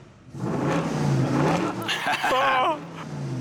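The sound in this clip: A worn manual-transmission car's engine roars loudly and revs, a rough, throaty rumble with a strained whine breaking through partway.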